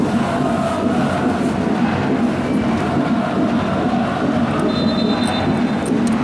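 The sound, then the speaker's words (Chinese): Football fans cheer without pause during a match involving Chuxiong, a dense, unbroken crowd roar holding an even loudness throughout. “从比赛开始到现在，球迷的欢呼声就没有中断过。”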